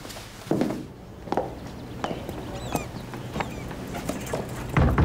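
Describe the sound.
Footsteps head downstairs in a series of irregular, muffled thuds and scuffs, several steps in all, set against a low background hiss.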